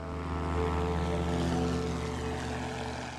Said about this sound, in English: The small plane speeds down the dirt runway.